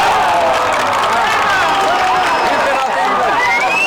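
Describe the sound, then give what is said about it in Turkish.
Women cheer and shout from the stands at a large sports tournament with 37 teams. The crowd's voices form a loud, continuous roar for the whole stretch. “Karşılaşmaları tribünlerde en çok kadınlar takip etti. Kadınlar sahada tezahüratlar ekledi.”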